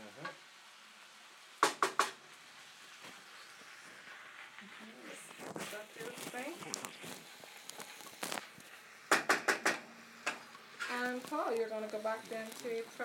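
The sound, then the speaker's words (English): Coddle cooks in oil in a lidded pot with a soft sizzle, while a few sharp clatters of utensils or lid ring out and people talk over the frying. “they're going to cook away in that coddle. So basically, Paul, once you have that, you've already got that cost in the oil, just stick the lid on.”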